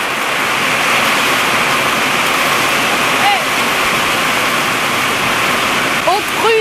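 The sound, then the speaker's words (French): Hail pours down in an August storm, a loud, steady, dense hiss and patter that fills the whole clip without letting up. “Au départ, c'était un simple orage de grêle. Trois quarts d'heure plus tard, il était toujours là.”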